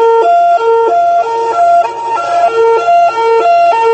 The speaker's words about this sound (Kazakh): Сирена.